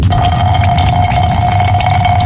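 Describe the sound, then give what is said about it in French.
A man urinates into an airplane toilet during turbulence, making a steady splashing, pouring stream of liquid. It runs over a loud, constant cabin drone with a persistent mid-pitched hum. “Putain de turbulence! Pas moyen de pisser droit ici, qu'est-ce que c'est que ça?”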